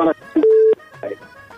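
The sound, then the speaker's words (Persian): Telephone line sound as the next caller connects to a call-in program: a steady electronic tone held for about a third of a second, set among short, clipped bursts of sound over the line. “میریم طرف تماس بعدی ببینیم کدام از زیم هست، از کجا تماس گرفته.”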